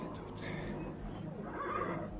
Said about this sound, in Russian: Только в стойлах пофыркивали лошади.